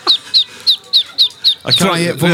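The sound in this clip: A duckling gives six rapid, high-pitched peeps, each a short falling chirp, before louder people's voices take over at the end.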